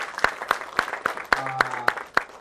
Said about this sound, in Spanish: Aplauso a nuestra señora más linda.